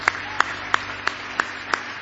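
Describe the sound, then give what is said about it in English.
A church audience gives a hand clap of praise during a service: six sharp claps land in a steady, evenly spaced rhythm over a low background hum. “Go ahead and give him a good hand clap of praise tonight.”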